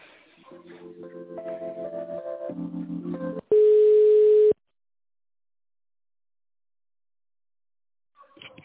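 Telephone line tones play while a call is transferred: a run of short stepped electronic tones, then one steady loud tone lasting about a second, then silence before a brief faint sound at the end.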